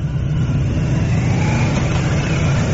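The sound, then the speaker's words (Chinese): Steady engine hum and road noise from a car pulling out of a state guesthouse to join an official motorcade, even and continuous throughout with no voices. “现在从钓鱼台国宾馆驶出的友谊勋章获得者乘坐的车辆准备汇入礼宾车队。”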